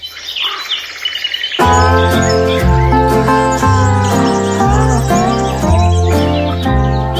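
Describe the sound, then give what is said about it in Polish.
Birds singing at dawn give off bright, rapid chirps alone at first, then loud sustained instrumental tones enter and dominate the rest, with chirps still faintly threading through. “Czwartego lipca ptaki dzienne zostały obudzone przez sowy później niż zazwyczaj. Zaczęły śpiewać.”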